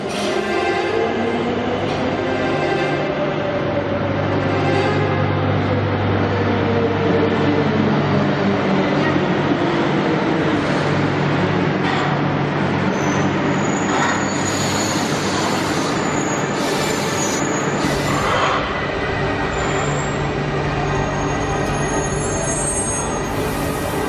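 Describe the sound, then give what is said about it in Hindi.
A train arriving at a station produces a long, steady rolling rumble, with shrill wheel squeals rising above it in the later part. “देखो अब जो train आएगी हम दोनों उसमें सवार हो जाएंगे”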